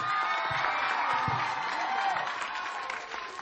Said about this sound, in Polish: Brawa i to gorące, armia dzieci!